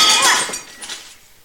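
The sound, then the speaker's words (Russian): A glass bottle is smashed against a bar in a fit of rage: one sharp, bright shattering crash, then scattered tinkling shards that quickly fade out. “Джордж в ярости разбивает бутылку о бар, неподвижно стоит, держа за горлышко остатки бутылки.”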